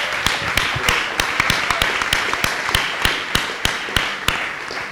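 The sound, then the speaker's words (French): A church audience clapping in praise of David during a worship service: many sharp, crisp claps keep a steady rhythmic beat and stay at an even, fairly loud level. “Let's clap for David.”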